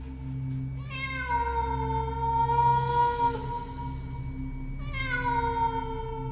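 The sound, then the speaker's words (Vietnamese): A cat meows twice: the first a long, drawn-out wail, the second starting just before the end and cut off. Both sit over a low, steady hum. “Nó hướng đôi mắt xanh lè lè như con đom đóm, rồi ngoác mồm kêu lên mấy tiếng ngoao ngoao, nhảy ra khỏi cái quan tài.”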